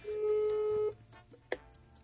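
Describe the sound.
A telephone ringback tone from a call that rings unanswered: one sustained, steady mid-pitched tone lasting just under a second, followed by quiet and a single short click.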